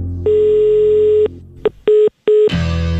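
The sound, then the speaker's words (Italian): Telephone tones from an Italian radio call being dialed again: a long steady tone, then a few short separate beeps, ending in a burst of noisy sound. “Chiamiamo ancora.”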